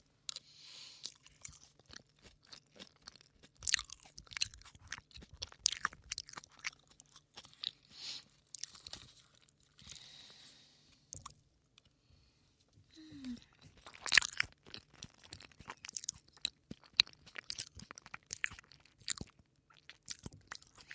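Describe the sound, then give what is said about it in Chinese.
Chewing and eating of durian fruit: many irregular wet, crunchy mouth sounds and bites follow one another in uneven bursts, some louder than others, with brief quiet gaps between them. “虽然榴莲的热量很高，但是真的好好吃。”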